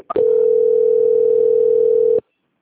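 A telephone tone plays while a bank call is transferred: one steady, loud, continuous pitch that lasts about two seconds after a brief click, then stops abruptly into silence.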